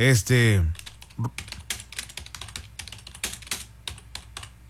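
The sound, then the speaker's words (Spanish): Typing on a computer keyboard in quick, uneven bursts of clattering keystrokes follows a brief spoken sound at the start. “Perdón, es que escribo o hablo. No puedo hacer las dos cosas al mismo tiempo.”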